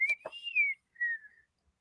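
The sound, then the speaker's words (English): An odd whistling sound in the outback bush: a long, clear whistle that rises and then falls, followed after a short gap by a briefer, steadier whistle, both faint and with no voices. “Like Chris says, it sounds like a whistling on our end.”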